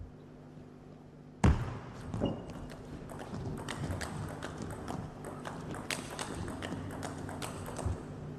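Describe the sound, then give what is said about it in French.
Table tennis ball rally during a women's match: many quick, light taps of the ball on table and paddles in an irregular, lively rhythm over a low steady hum, with one sharper hit near the start. “Ah, un bel échange. Bien tenu. Elle n'a pas cherché à jouer fort, elle a juste cherché à tenir la balle sur la table.”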